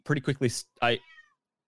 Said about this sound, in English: I've got my door open because no one else is here, but that means you might hear the cat a bit more clearly.